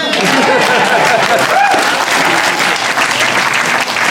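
Applause from a live show audience welcoming the evening's guests: dense, loud, continuous clapping that fills the whole stretch without a break.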